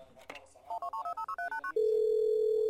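A phone call being placed: a quick run of touch-tone dialing beeps at varying pitches, then a steady, unbroken ringing tone.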